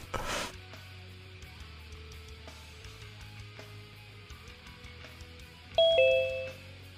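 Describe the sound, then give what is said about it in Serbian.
A doorbell rings once near the end with a clear two-tone ding-dong that fades out, after a stretch of quiet low hum. “Evo, zvoni neko. Zvoni, ajde, opa, evo ga.”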